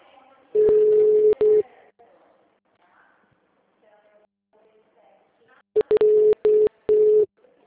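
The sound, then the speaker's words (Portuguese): Telephone ringback tone on an outgoing call to a client: a steady low electronic tone in one long burst, then after a pause a choppy cluster of shorter tone bursts, loud and clear. “Tá ligando pro cliente? Chamando.”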